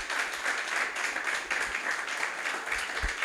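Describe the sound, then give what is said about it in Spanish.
A church audience applauds the Lord with a sustained, fairly soft patter of many hands clapping, steady throughout with no talk over it. “Denle un fuerte aplauso al Señor. Denle un fuerte aplauso.”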